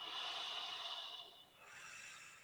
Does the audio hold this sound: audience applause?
no